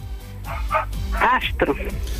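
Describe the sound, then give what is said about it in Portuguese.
A male dog barks and yips in a few sharp, high-pitched bursts, with a person talking underneath. “Manda calar a cadela, se faz favor. Não é cadela, é cão, ela fala dele.”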